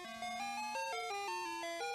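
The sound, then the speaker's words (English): An ice cream truck's electronic chime plays a simple tune of several sustained, stepped notes, steady and fairly loud, with no voices. “I'm the ice cream truck driver here in the neighborhood.”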